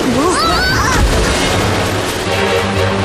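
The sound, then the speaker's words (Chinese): A small floating island breaking apart, heard as a heavy boom and crash after some high, wavering tones, then giving way to a continuous low rumbling noise. “哦，我的天哪！这座小浮岛开始四分五裂了。”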